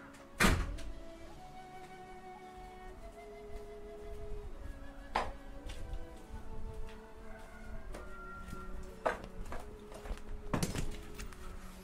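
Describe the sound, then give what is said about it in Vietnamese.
A door is shut to block out noise. A few dull, heavy thunks stand out over a steady droning background noise, with no talking. “quý vị đợi tí nha, mình ra đóng cửa cái ồn quá.”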